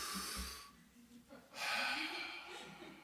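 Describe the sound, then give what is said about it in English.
A deep breath taken mid-sermon by a preacher speaking on Ephesians: two breathy rushes of air, a shorter one followed by a longer, louder one, heard alone. “Maybe I should calm down. Take a deep breath.”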